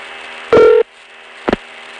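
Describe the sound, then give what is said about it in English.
Touch-tone telephone dialing: one long, loud keypad tone, a pause, then a much shorter tone. Both sit over a steady line hiss. “5353 is a working number. Will you dial it again, please?”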